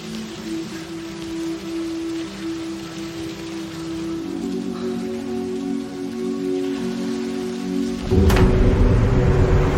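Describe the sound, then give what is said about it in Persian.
Steady rain falling, a continuous hiss with a low tonal hum underneath, growing noticeably louder and fuller toward the end. “چه بارون میاد.”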